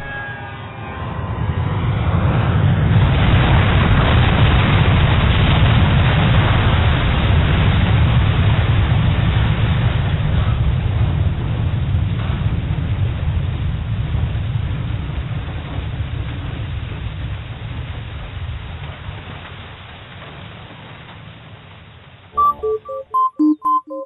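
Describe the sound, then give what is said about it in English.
Crash and explosion effect: a long, loud roaring rumble swells early and holds, then slowly fades over about twenty seconds. A few sharp pops close it. “We're about to crash any second.”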